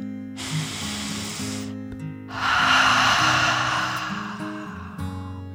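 A deep breath is drawn in with a soft, airy hiss, followed after a brief gap by a longer, louder breath out, over calm, steady background music.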